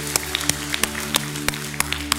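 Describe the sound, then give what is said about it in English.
A church audience claps in praise: sharp, evenly spaced hand claps in a quick steady rhythm over a sustained, held musical chord. “Why don't you give him one more hand clap of praise, because he's worthy.”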